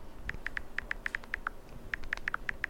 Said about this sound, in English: I can't type like this.